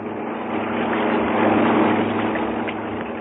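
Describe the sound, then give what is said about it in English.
A propeller aircraft lands and taxis near a village, its engine a steady, rumbling drone that swells slightly in the middle and eases off toward the end. “We circled the place and decided to risk a landing. We had no means of knowing if the natives were hostile, but we decided to gamble our skill with theirs, and so we dropped down.”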